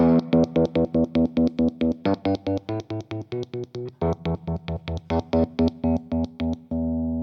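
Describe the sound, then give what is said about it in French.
An electric guitar's kill-switch effect, made by turning one pickup's volume off and flicking the pickup selector: a distorted chord chopped into many rapid, evenly spaced on-off stutters, ending on a steady sustained tone. “C'est tout simplement l'effet kill switch. Vous coupez le volume d'un des deux micros et vous jouez avec votre sélecteur”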